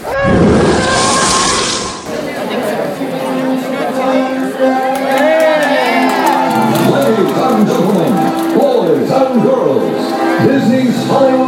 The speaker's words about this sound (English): I know recording a parade is not a great audio thing, but maybe I can get the celebrity announcements, and that'll be something. We'll see. You'll find out pretty soon, actually, like right after this.